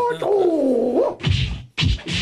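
Handbag blows land in a few loud, broad thwacks and swishes after a brief pitched vocal cry at the start, the hits coming in quick bursts.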